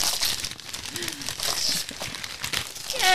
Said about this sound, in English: I got some red Santa paper. Yeah. We'll open at the same time and we'll do a little ASMR.